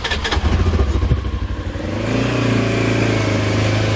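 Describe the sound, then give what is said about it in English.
An all-terrain vehicle engine on a levee along the Illinois River clatters at first, then settles into a steady, loud, low droning hum. “Kammeyer patrols the levee in an all-terrain vehicle.”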